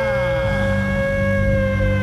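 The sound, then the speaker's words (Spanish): A siren sound effect is played as a celebratory cue before a Colombia football match, sounding as a loud, steady wailing tone with bright harmonics and a slight drift in pitch throughout. “Téngame la sirena siempre ahí, porque hoy juega Colombia”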